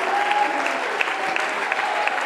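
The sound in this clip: A church audience clapping their hands during a worship service: dense, continuous applause with an even, sustained loudness throughout.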